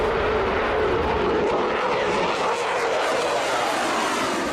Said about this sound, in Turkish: 2 adet Pratt & Whitney F-119 motoruyla görev yapan F-22 it dalaşında en iyi savaş uçağı olarak kabul ediliyor.